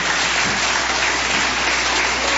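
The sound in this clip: An audience applauds a preacher during a church service, dense sustained clapping at a steady loudness throughout, with no clear speech on top.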